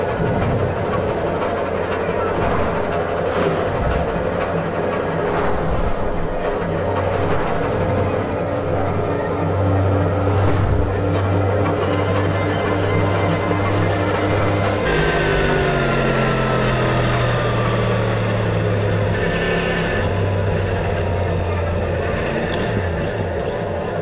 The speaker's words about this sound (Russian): Мотоцикл мчит по трассе, обгоняя другие авто.